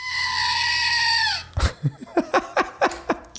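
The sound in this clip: A squeezed stress toy gives a long, goat-like harmonic squeal whose pitch drops at the end, then a rapid series of short, sharp squeaks.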